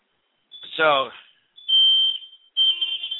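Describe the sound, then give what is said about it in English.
A fire alarm going off in a radio studio, sounding three bursts of shrill, high-pitched beeping while a man keeps talking over it. “our fire alarm here is going off for some reason. So maybe I'm going to continue going here, but our fire alarm's going off here in the Balance Radio studio.”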